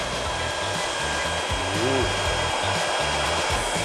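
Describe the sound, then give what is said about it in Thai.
A hair dryer of about 1,800 watts, used for curling hair, blows with a steady, loud, airy whir and an even low motor hum throughout, without pause. “แต่การใช้ในลักษณะนี้อยากจะแนะนำให้เป็นไดเป่าผมที่มีจำนวนแรงวัตต์ที่แรงนิดนึงนะครับ”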